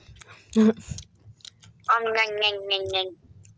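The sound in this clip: Someone chewing food makes soft clicking mouth noises. A voice then hums a drawn-out, sing-song imitation of eating, fairly faint.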